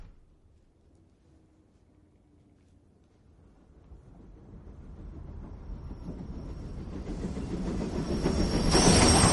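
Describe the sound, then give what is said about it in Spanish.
A train pulls into a station and stops. A low rumble and clatter build gradually from near silence, and a high, thin wheel squeal rises over the noise toward the end. “Un tren se detiene en una estación.”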